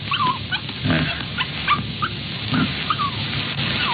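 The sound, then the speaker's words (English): A female puppy whimpering and yipping, giving a few faint, high, squeaky cries over a steady noisy background. “It's a little girl. Just a puppy.”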